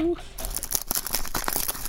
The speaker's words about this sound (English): Straight off YouTube. That's me struggling to open the envelope.